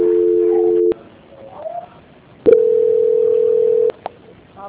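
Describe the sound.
A telephone call transfer tone on a phone line: two long, steady, mid-pitched tones, each held for about a second or more, separated by a quieter gap of line noise.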